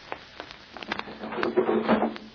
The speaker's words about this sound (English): You open the windows while I turn off these gas jets. Della, open the windows.